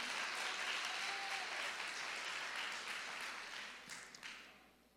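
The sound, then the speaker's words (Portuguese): An audience applauds during a church sermon. The steady crowd clapping is fairly faint and continues alone for about five seconds before thinning and fading out. “Aplaude mesmo, vocês estão mais ou menos hoje, hein?”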